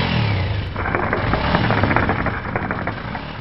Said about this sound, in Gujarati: આ મોટરસાયકલનું સાયલન્સર ત્યારે જ નીકળી ગયું હતું.